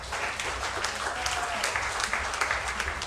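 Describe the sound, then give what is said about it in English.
Audience applause welcomes a band onto the stage, a steady, even patter of many hands clapping at moderate volume with no break. “Please put your hands together and welcome to the stage Timothy Carroll and his band.”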